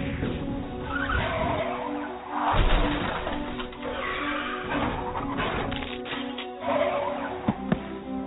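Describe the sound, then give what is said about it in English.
Car tires skidding in an accident: a sustained screeching squeal over a droning hum that swells louder near the middle and again near the end, with a couple of sharp clicks at the close. “An accident.”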